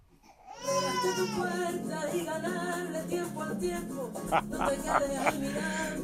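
A baby girl cries in sustained, wailing sobs that start after a brief quiet moment and continue loudly, with pitch wavering through repeated breaths.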